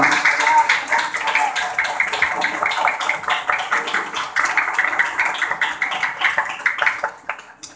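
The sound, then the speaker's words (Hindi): Rhythmic clapping by a group in an echoing room, many sharp claps in a fairly steady beat that ring on briefly, thinning to a few scattered claps at the end. “वाह तालियों की आवाज तो मस्त गूंज रही है।”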